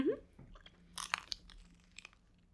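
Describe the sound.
Crunchy chewing of a snack layered like a little sandwich, with a few crisp bites and soft wet mastication, quiet and alone.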